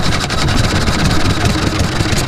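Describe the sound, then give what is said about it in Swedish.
Steady running of an Olympia 3.5-horsepower engine, a continuous, even mechanical drone that holds at one loudness without breaks, heard alone. “Olympia, 3,5 hästkrafter.”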